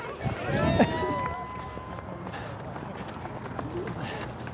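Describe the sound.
A crowd of runners sets off on a one-mile run, with a rush of footfalls and movement that swells early and then settles into a steady patter, and voices mixed in.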